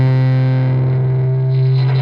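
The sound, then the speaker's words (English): Layered, reverb-heavy instrumental notes merge into a thick, textured drone, a sustained low tone with dense overtones and a steady, loud level throughout, with no voices. “He manages to build a textured sound out of those reverb-heavy notes. So he goes from this”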